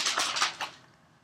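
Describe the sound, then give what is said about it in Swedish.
Soft papery rustles of pages being flipped in a binder, a few quick swishes in succession that fade into near silence. “Jag tittar i min perm. Nästa veckas huvudämne. Bläddrar.”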